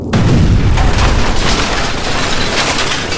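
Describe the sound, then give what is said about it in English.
A loud explosion blows open a prison cell and bends its bars: a sudden blast hits at once, then a heavy, rumbling roar stays loud for about three seconds. “an explosion interrupted Tim. The men all fell to their feet.”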